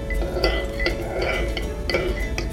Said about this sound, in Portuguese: Agora eu vou mexer.